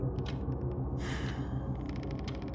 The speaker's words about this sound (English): Takes a deep breath.